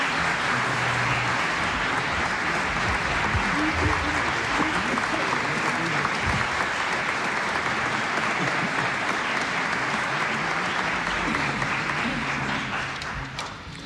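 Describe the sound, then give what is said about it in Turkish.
Audience applause for the singers and instrumentalists at a Turkish folk song concert: a dense, steady patter of clapping that holds evenly throughout and tapers slightly at the very end. “Alkışlarımız bu vaadimizi yerine getirecek ses ve saz sanatçılarımız ve Şef Zafer Gündoğdu için.”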